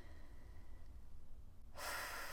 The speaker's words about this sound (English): So let's take a collective breath in.